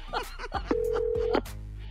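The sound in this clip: A telephone being dialed before a prank call: a few sharp clicks and one steady electronic tone lasting over half a second. Brief voice sounds are mixed in.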